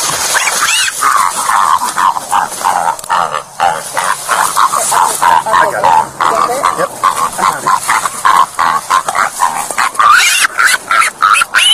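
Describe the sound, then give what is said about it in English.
A pig squeals as police officers pull it from a highway: loud, high, strained squeals that run almost without a break, pulsing in many quick bursts throughout. “What do you think it sounds like when a police officer pulls a pig from the highway? It sounds like this.”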